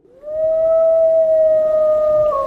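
A single wolf howl: one long, loud tonal cry that climbs quickly at the start, then holds a steady pitch for about two seconds before dipping slightly at the end, with no talk over it.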